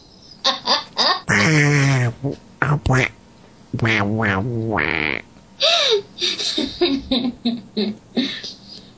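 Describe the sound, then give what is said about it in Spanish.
A disk drive reading a disc, sounding like Donald Duck: squawky, quacking bursts of garbled chatter, several loud warbling phrases broken by short gaps. “Este es el disco leyendo. Parece el pato Donald.”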